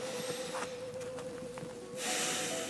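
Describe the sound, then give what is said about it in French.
A deep inhale through the nose during a relaxation breathing exercise, heard as a steady breathy hiss that swells in the final second over a soft sustained tone. “Et puis une troisième, inspire avec le nez.”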